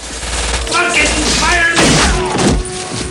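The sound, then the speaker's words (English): Gunshots in a film scene as a man on a landing fires two guns at the ceiling and at men. Several heavy, booming shots and thuds rise out of a loud, busy mix. “Forrest shoots the ceiling with one and the man with the other. He shoots a man in black.”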